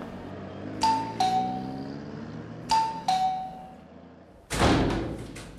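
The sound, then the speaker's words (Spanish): A doorbell at a well-to-do house in Buenos Aires rings a two-note chime twice, with bright clear tones and a pause between the rings. A heavy thud and some clatter follow. “El tipo para en una casa de buen nivel y toca el timbre.”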